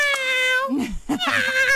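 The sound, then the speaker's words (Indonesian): A stray tomcat perched on top of a car meows in two drawn-out, high, wavering calls with rich overtones, separated by a brief lower, rougher sound. “Itu kan kucing garik. Kucing itu garong. Garong. Dia kucing garong.”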